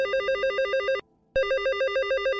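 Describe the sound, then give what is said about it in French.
Telephone ringing with a bright, warbling electronic trill in two bursts: one lasting about a second, a brief silent gap, then a second burst that continues to the end. “Deux mois plus tard, coup de fil.”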